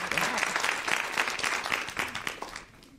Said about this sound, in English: Thank you, panel one. Please thank this fine panel.